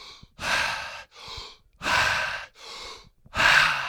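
Breathwork practice breaths, loud and forceful, in three cycles: each softer breath is followed by a stronger, airy rush, giving a steady rhythmic pattern with no talking.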